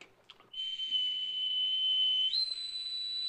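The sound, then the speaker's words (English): A whistle is blown into a payphone mouthpiece to imitate a departing ship's signal. It gives a shrill, sustained, steady tone that steps up slightly in pitch near the end and is heard alone. “Using a payphone, Willoughby blows into the mouthpiece. All ashore that's going ashore.”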